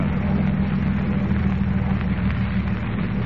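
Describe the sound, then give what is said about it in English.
A boat motor runs with a steady low, rumbling drone that holds even and unbroken throughout, with no voices over it. “Stop the motor.”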